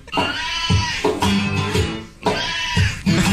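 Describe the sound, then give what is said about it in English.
A cat meows in long, drawn-out notes that hold close to one pitch, like singing. A few loud, bleat-like wails repeat with short gaps between them, and there is no talk. “That's a cat singing the blues.”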